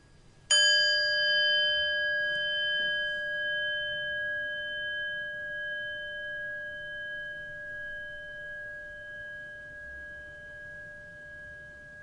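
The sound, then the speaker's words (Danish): A meditation bell is struck once and left to ring out, its clear, bright tone with several ringing overtones sustaining alone and slowly fading over many seconds. “Og jeg starter med at slå på klokken og beder dig om at lytte til lyden, indtil du ikke kan høre den længere.”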